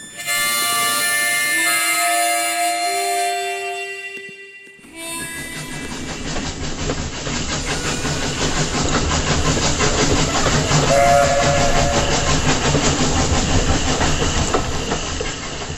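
A steam train pulls in at an old Wild West station. A long steady whistle with several sustained tones sounds first, then gives way to a loud, continuous hiss and the rolling clatter of wagons that lasts to the end.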